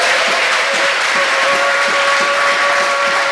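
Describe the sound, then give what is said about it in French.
Applause at a church gathering celebrating academic achievements: dense, steady clapping fills the whole clip at an even loudness, with a faint sustained tone running beneath it. “Est-ce qu'on peut acclamer le Seigneur? Can we clap for the Lord?”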